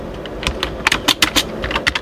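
Keys clack on a computer keyboard as a writing prompt is typed, an uneven run of many sharp taps that comes in quick little clusters, clear and alone with no talk.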